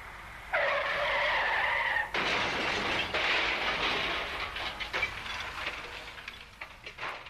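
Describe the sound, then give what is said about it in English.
Car tyres skid in a long, harsh screech during a road crash, then break off into a loud, noisy burst of crashing that rumbles and clatters on before gradually thinning out. “Another road crash, another statistic.”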